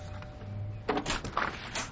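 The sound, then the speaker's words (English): A door being opened, heard as a handful of soft clicks and rattles in quick succession after a quiet moment. “She peeks out the blind, then opens her door.”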